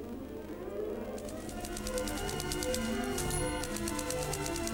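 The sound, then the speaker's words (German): Typewriter keys clack in a radio play, a rapid, regular run of many sharp clicks that starts after about a second and continues to the end over a steady, low melodic background. “Bis hin zur melancholischen Trauer, wenn melodiöse Sentimentalität auf den harten Klang der Schreibmaschine trifft, ein Symbol des Industriezeitalters.”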